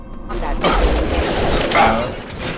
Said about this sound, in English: Let's try this sniper rifle.